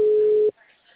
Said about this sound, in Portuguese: Ah, entendi. O número está ocupado.